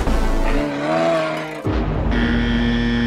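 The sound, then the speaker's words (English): A moose call sounds as a loud, drawn-out tonal moan that rises slightly in pitch. It breaks off abruptly and gives way to a steadier, sustained droning tone. “It is a moose.”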